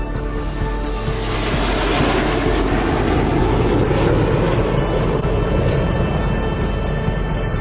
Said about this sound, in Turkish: Kanadın arkasından minyatür kasırgalar geçtiği için türbülans gürültülü olur. Bu kasırgalar çarpıştığında ise gürültü şiddetlenir.